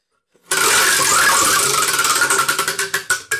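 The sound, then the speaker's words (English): A topic wheel with fifty slots spins, beginning with a sudden whirring rattle that breaks into rapid ticking, the clicks growing louder and more widely spaced as the wheel slows toward a stop. “spin the wheel”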